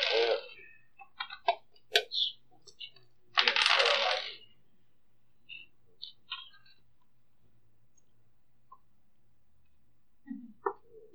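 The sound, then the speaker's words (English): Dice roll on a table during a tabletop role-playing game: a few scattered bursts of sharp clicks and rattles separated by quiet pauses, fairly faint. “Alright, so you roll 2 times the dice.”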